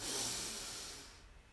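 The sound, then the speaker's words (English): A slow, deep inhaling breath taken during a guided breathing exercise, a soft, airy rush that swells at the start and gradually fades away over about a second and a half. “And our last breath together, breathe in”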